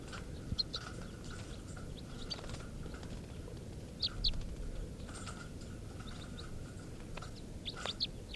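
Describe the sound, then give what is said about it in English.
Begging calls of a young bird come through as faint, brief high chirps scattered over a steady background hiss, with a few short clusters of calls rather than a continuous sequence. “And this is begging of bird 432.”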